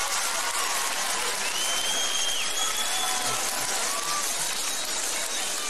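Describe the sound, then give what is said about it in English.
An audience of women claps: a dense, steady hiss of many hands applauding, even and unbroken for the whole stretch, with faint thin tones drifting above. “I see y'all some disillusioned ladies clapping right now.”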